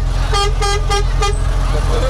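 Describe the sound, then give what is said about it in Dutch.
A vehicle horn tooted repeatedly at a red traffic light: four short, even, mid-pitched toots in a steady rhythm, followed by a fainter trailing tone, over a constant low engine rumble. “Toeter, hoor. Iedereen kijkt hier. Ze horen de toeter. Ze horen jullie toeter. Hey. Ja. Ze blijven maar toeteren.”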